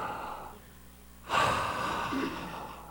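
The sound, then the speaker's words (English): A deep breath drawn in: a sudden, rushing, airy inhale that starts abruptly after a quiet stretch and holds steadily loud until the end. “Just take a deep breath.”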